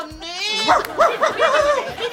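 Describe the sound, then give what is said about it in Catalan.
A man on all fours uses his voice to imitate a small lapdog. A long whiny vocal tone gives way to several short, high yelping yaps in an uneven rhythm, fairly loud and voiced throughout. “amb quatre grapes, imita un gos petaner”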